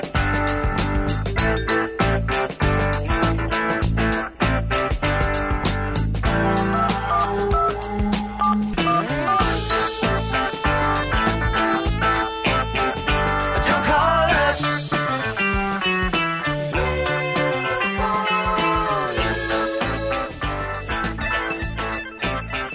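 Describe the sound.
A 1970s pop-rock song plays loud and continuous, with a full band driving a steady rhythm. Bright touch-tone-like beeps run through the dense mix, and there is no talk over it.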